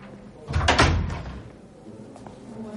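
A door opening in a tense crime drama scene. A single loud, clattering burst lasts about a second, then drops back to a quieter background hum.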